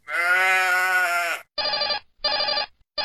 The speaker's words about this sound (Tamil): அட, இது என்ன போன் அடிக்குது வீட்டுக்குள்ள?